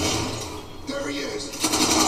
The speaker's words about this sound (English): All right, we go to the bullpen and get in an elevator.